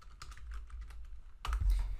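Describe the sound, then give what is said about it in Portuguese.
A computer keyboard is used while posting a comment in a Google Sheets spreadsheet: a few light key clicks, then a louder, firmer press of the Enter key near the end. “quando eu dou Enter, olha só, ficou aqui esse meu comentário.”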